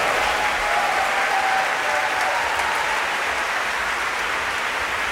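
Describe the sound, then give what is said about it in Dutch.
Steady, dense applause from a concert audience at an early music festival fills the whole five seconds, a loud even wash of clapping without pauses or distinct voices. “En applaus zeker natuurlijk voor Michael Hel”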